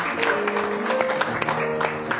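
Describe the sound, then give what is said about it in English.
Clapping from a church audience for a saxophone player, heard as many sharp, irregular hand claps over a sustained tonal background. “Let's give him a clap here.”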